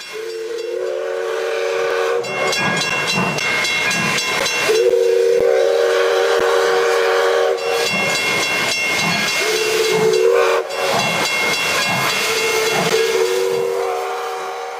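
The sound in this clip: A steam train sounds its whistle in several long, steady blasts, each followed by a loud rush of hissing steam, with the whistle and the hiss alternating for the whole stretch and no voices.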